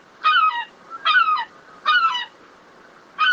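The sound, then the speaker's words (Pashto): Seagulls call in the streets of Rome with four loud, nasal, harmonic cries. Each is a short squawk that slurs downward, spaced about a second apart against a quiet background. “د سیګل خواړه کم شول. پخوا به دې سمندري مرغه د روم په کوڅو او واټونو کې له انسانانو پاتې شوي خواړه پسې خوړل.”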